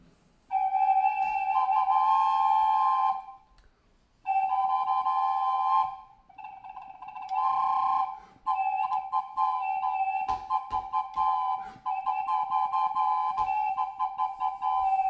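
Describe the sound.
Peruvian terracotta figures joined into a band, sounded by blowing through holes in the back of each player, give out clear, high, flute-like whistles: long steady held tones broken by short gaps, turning into choppier, fluttering notes toward the end.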